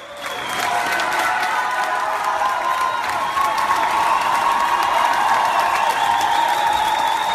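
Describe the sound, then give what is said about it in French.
Standing ovation in a Moscow theatre at the curtain calls as the stage director steps on stage: many hands clapping, swelling quickly at the start and then holding loud and steady throughout. “Ovation debout quand le metteur en scène Kirill Serebrennikov est monté sur scène.”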